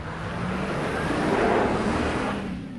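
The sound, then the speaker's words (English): Tires of a furnace repair van spin in deep snow on a residential street in Boston as the van fishtails, giving a steady rushing roar of engine and wheel-spin with a faint whine that swells slightly mid-clip. “spinning their tires as their furnace repair van fishtails and eventually gets stuck on a residential street in Boston”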